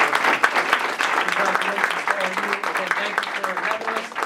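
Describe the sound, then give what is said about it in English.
An audience claps a round of applause in steady, dense patter, with a person's voice talking over it throughout. “So I just want, one more time, we'll give them, these guys a round of applause.”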